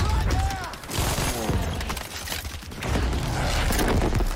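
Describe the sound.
Gunfire and blasts from a video game firefight form a dense, continuous barrage with voices talking over the action.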